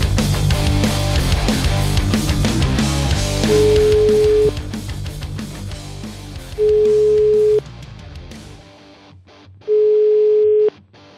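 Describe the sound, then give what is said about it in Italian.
A call placed to a mobile phone rings through: steady ringback tones, each about a second long, come three times a few seconds apart. They start over busy background music, and the music then cuts out. “Proviamo a chiamare il prete però, che c'è il cellulare, un attimo solo, vai. Proviamo a chiamare.”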